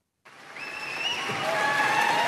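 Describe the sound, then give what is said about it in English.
Applause greets Keir Starmer as he steps out of 10 Downing Street. The clapping starts suddenly, then builds steadily in loudness and density over a couple of seconds. “Sir Keir Starmer emerged from his residence at 10 Downing Street to applause.”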